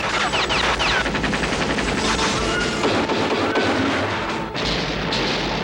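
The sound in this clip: Rapid machine-gun fire, a dense, continuous rattle of loud shots that runs through the whole clip with only a brief dip near the end.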